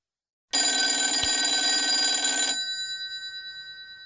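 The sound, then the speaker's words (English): A telephone rings for an incoming call: a single loud, continuous electric bell ring lasting about two seconds, then a fading, pulsing ring-out tail. “we've got a caller on the Blue Notes fan line”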